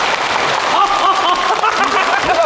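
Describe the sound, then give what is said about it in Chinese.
An audience claps during a comedy stage performance, a steady, even patter of many hands with a voice faintly audible over it. “哎，鼓掌鼓掌。”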